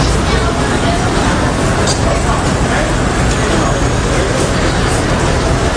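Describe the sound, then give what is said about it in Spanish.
Morning street traffic in Manhattan, New York City, forms a steady, loud roar of engines and road noise mixed with a murmur of crowd babble, continuous throughout with no pauses. “Este es el sonido de Nueva York a las 8:30 de la mañana del 11 de septiembre de 2001.”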